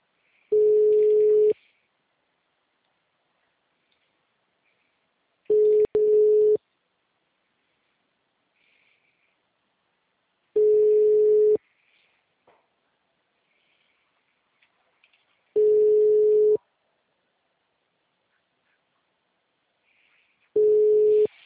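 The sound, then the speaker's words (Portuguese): A telephone call is placed, and the line answers with a calling tone. Five steady one-second beeps of the same pitch arrive at even intervals of about five seconds, with silence between them. “Eu que estou fazendo uma ligação.”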